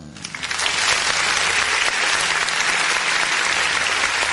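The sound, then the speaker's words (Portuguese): A production team plays an applause sound effect at the push of a button: dense clapping swells within half a second and then stays loud and even for about four seconds. “quero de novo aí que você dá os aplausos aí para nossa gloriosa Polícia Civil por esse brilhante trabalho aí. Aperta esse botão aí, produção!”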